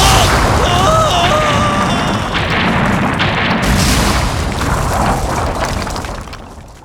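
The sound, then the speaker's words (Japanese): Rocks falling from the top of a cliff in an animated drama make a loud, sustained rumbling crash of tumbling stone, continuous and heavy, easing off toward the end. “おお、崖の上から岩が落っこってくる。”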